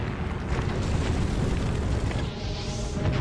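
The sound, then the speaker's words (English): Planes exploding on an aircraft carrier make a dense, continuous rumble of heavy booms. The blasts blur into one loud roar without clearly separate hits. “Planes start to explode on the carrier,”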